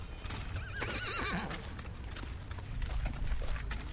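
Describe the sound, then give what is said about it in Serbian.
A ridden horse walks with rhythmic hoof clip-clops and gives a clear, wavering whinny early on, then keeps stepping steadily at moderate loudness. “Konj, kad ima jahača, on samo jahača sluša šta mu on govori.”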